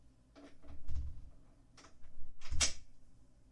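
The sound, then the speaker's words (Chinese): A door is locked with a few faint, low clunks, the second one sharper and clicking, separated by quiet. “锁上了。所以说，锁门到底有什么用啊？”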